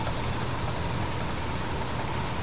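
A car engine runs steadily while the car parks in a forest, giving a continuous low rumble with broad, even noise and no distinct events.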